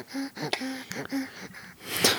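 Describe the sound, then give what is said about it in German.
A small creature breathing heavily: faint, quick, raspy breaths in a repeating rhythm, followed by a slightly louder, noisier exhale at the end. “Oh Gott, das atmet so schwer.”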